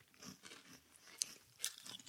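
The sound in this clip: Crunching of an all dressed potato chip being eaten: a few crisp bites and brittle chewing crunches, quiet, with no talk.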